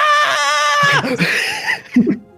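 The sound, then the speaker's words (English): A person screams during a game in a high, wavering, bleat-like cry that falls in pitch after about a second, followed by short breathy vocal sounds. “Did you actually scream? Yes.”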